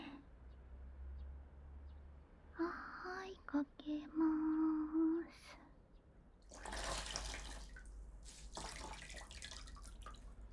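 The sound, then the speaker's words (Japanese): Hot water is poured during a washing session: after a soft voice speaks briefly, faint splashing rushes of water come in two bursts against an otherwise quiet background. “お湯かけますね。”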